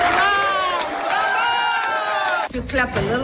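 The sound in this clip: Colleagues cheer enthusiastically for a prize winner, with overlapping high voices whooping and calling out loudly together. A brief dip is followed by a fresh burst of excited shouts.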